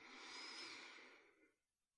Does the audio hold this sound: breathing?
yes